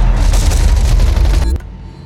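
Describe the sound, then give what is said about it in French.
Soldiers return fire with Kalashnikov automatic weapons in a firefight, a loud, dense burst of rapid shots and booming reports that runs for about a second and a half, then cuts off abruptly into quiet. “Les soldats sont attaqués des rafales d'armes automatiques. Ils n'ont jamais vu autant de Kalachnikov dans ce pays où il y a quelques années, les guerriers se battaient encore avec des armes traditionnelles. Les soldats ripostent.”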